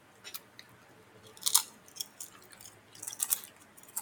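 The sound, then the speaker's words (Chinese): Chewing on pork skewers wrapped with scallion and enoki mushrooms: a few crisp, bright crunching bites in separate bursts over quiet mouth sounds, with no talking. “你在吃什么？ 我在吃呃猪肉串，有包葱跟包金针菇的，然后另外还有鸡腿三明治。”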